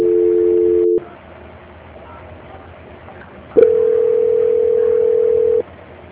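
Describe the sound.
Telephone tones during a call transfer: a steady two-note tone holds for about a second, drops to a quiet line hum, then a single steady tone sounds for about two seconds before cutting off.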